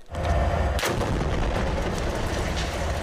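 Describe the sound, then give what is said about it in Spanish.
Bombardment explosions in the Gaza Strip near the region's largest hospital roll as a loud, continuous low rumble, with a sharp blast cracking through near the start and the booming din carrying on without pause. “Los bombardeos en la franja de Gaza se intensificaron en los alrededores del hospital al el más grande de la región.”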